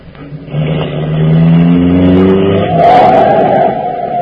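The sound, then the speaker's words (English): A car drives past dangerously close, its engine a loud, steady droning hum that lifts and shifts in pitch partway through as it surges by; no voices are heard. “That man nearly drove into you.”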